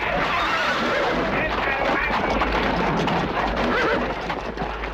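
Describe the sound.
Horse hooves clatter steadily under a dense, loud wash of noise as riders approach, one man on a white horse.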